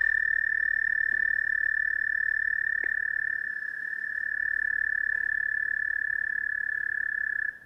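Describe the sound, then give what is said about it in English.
American toad trill: one long, steady, high musical trill, continuous and loud for about seven seconds before it stops abruptly. “Okay, so that's the American toad.”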